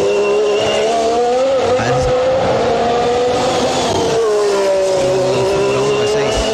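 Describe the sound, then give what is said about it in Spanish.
A V6 racing engine screaming loudly and continuously at high revs, its pitch wavering down and up as it runs. “Es un V6, muy bien, es un V6, V6.”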